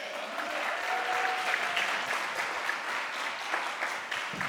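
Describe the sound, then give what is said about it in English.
Applause from a church audience welcoming a speaker to the stage before communion: steady, dense clapping that holds at an even level for the whole clip, with no talking over it. “So I'm going to welcome Sarah Moy. Would y'all give it up for Sarah?”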